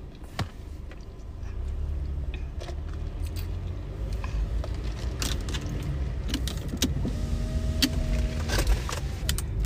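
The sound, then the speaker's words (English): A car starts to drive off, with a low, steady rumble building inside the cabin. Scattered sharp clicks and a light jingle like keys sit above it, along with a faint whirring tone, and nobody speaks. “I'm about to start driving.”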